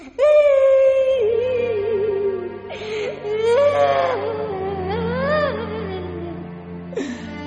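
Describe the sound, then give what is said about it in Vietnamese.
A child cries in long, wavering wails and moans, the voice drawn out over a few breathy phrases with a sliding pitch, loud at the start and easing slightly toward the end. “ngồi xếp bằng lại, gục đầu và khóc.”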